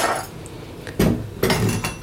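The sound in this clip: A metal whisk beating egg whites knocks against a bowl, giving a few sharp, irregular clinks over a soft background hiss.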